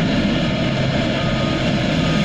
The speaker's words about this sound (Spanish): este fue el momento exacto en el que Mexicana de Aviación, luego de 13 años que fuera bajada prácticamente por una mala administración de particulares, eh, Mexicana de Aviación por fin regresó a los aires.